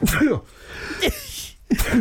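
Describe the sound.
A sneeze bursts out sharply in the middle of casual conversation, with people talking just before and after it.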